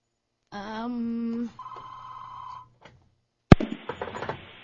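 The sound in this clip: Telephone ringing for an incoming call: two electronic ring bursts, the first buzzy and lower, the second higher and thinner. A soft click and a sharp, loud burst of noise follow.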